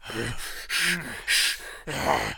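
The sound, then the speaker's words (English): A voice imitates a movie character's loud grunting and exhaling, with four rough, breathy bursts in quick succession, some carrying a low voiced grunt. “No, he's just constantly grunting and like exhaling like loudly.”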